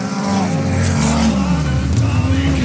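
Race car drifting through bends during a race, a loud continuous engine drone whose pitch dips and climbs again as the revs change, with no pause throughout.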